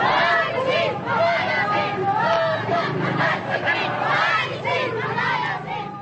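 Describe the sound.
Thousands of May Day protesters chant anti-government slogans against President Gloria Arroyo in the streets of Manila, a dense, continuous roar of many shouting voices with rhythmic swells.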